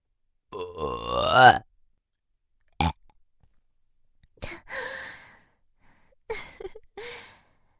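A burp-like guttural exhalation from a shrine maiden: one long croaking belch with a wavering pitch, then three shorter breathy, throaty bursts separated by silence, all fairly quiet.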